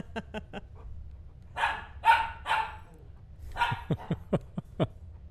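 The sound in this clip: A teeny tiny puppy gives high, sharp yips: a few quick ones at first, then a scatter of rougher, noisier sounds, then a faster burst of several more yaps near the end.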